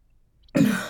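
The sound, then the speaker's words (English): A single short, harsh cough from a person, loud and abrupt after near silence, with a rough throat-clearing quality. “Why am I coughing this much?”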